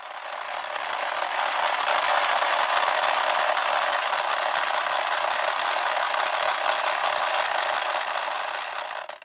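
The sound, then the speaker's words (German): A wooden ratchet noisemaker, the kind used at Fastnacht carnival and sports events, swung continuously: a loud, dense, grating clatter of rapid clicks that holds steady for about nine seconds before stopping. “das ohrenbetäubenden Lärm produziert und das wir heute noch von der Fastnacht oder von Sportevents kennen. Im Heimathaus Bevergern wird so ein Gerät, eine Ratsche, aufbewahrt.”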